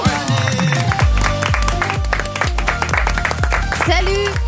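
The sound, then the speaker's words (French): Applause welcoming a contestant on a French radio game show, a dense patter of clapping mixed with a rhythmic music jingle that has a steady bass beat, continuing without pause. “Applaudissements pour Gaël.”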